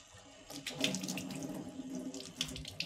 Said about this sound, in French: D'abord, je lave les deux mains. Voilà.